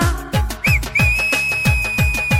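A whistle rings out over rhythmic music with a steady, thumping beat: first a short rising-and-falling note, then one long, sustained high tone that holds to the end.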